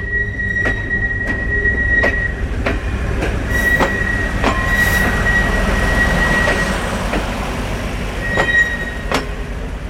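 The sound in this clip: A train rolls along the Spanish-gauge tracks at the mountain station of Canfranc in the Pyrenees, its wheels clacking over rail joints in a steady, regular rhythm under a continuous rumble, with a thin, high wheel squeal running throughout.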